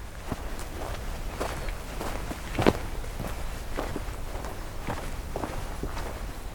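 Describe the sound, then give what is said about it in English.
Footsteps on a hiking trail fall in a steady, even walking rhythm of many soft, fairly faint steps over light background noise, with one slightly louder footfall near the middle. “Let's see if I can hike to the lake real quick here.”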